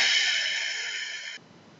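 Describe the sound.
A deep breath is let out through the mouth during a guided breathing exercise. The steady, breathy hiss lasts over a second and then cuts off abruptly.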